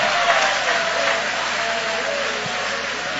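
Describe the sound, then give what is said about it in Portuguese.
A church audience applauds during worship, giving a steady, dense wash of many hands clapping that holds at an even, fairly loud level throughout, with no clear breaks. “joga a mão para cima então e aplaude a Ele.”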